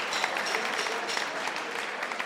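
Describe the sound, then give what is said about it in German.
Audience applause at a summer festival: steady, dense clapping from many hands, moderately loud and unbroken throughout. “Applaus.”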